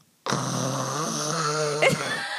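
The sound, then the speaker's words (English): A voice imitates a husband's loud snoring, a harsh buzzing sound made between the throat and nose. One long, rough snore is held for about two seconds and swells slightly near the end. “My husband snores so loud. So loudly.”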